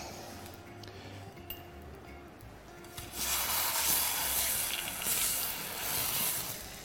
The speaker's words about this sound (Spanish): Esto se llama hacer un pescadito a la plancha.